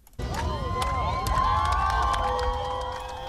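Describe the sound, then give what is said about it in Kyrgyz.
A crowd gathered in a central square in Yerevan cheers and shouts in celebration, a loud, sustained roar that erupts abruptly after a brief quiet moment, threaded with high, swooping whoops and mixed shouting voices. “Ереванын борбордук аянтына чогулгандар бул кабарды кубануу менен кыйкырык сүрөө менен кабыл алышты.”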